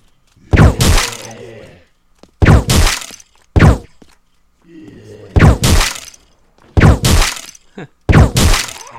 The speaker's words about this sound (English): I'm just holding down left stick to get it to keep firing.